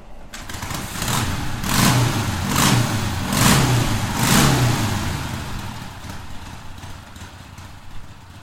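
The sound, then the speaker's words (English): Motorcycle engine starting and revving: a custom Harley-Davidson Magnum with a 1949 frame and bottom end, custom-made transmission and Sportster heads and barrels. Loud, throbbing surges build and ease off, then settle into a steady, lumpy rumble. “he's going to start it up. So let's hear the Harley-Davidson Magnum start.”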